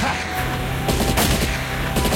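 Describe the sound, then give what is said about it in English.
Gunfire as bandits open fire behind a fleeing Neva car during a chase: several sharp, loud bursts of shots cracking over a steady low rumble, with no voices. “Behind him, the bandits open fire.”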